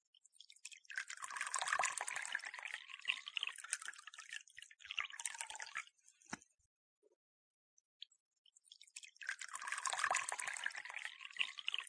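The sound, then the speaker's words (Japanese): Hot water being poured to make tea: two sustained splashing pours, each a few seconds long, separated by a short pause with a brief knock between them. No voices. “じゃ、お茶でも入れるか。 お湯は沸かしてありますわよ。”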